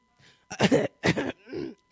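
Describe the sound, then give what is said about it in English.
A person clears their throat in several rough, gravelly bursts: a faint start, then a few loud, harsh rasps separated by short pauses, heard alone without talk. “Let me clear my throat.”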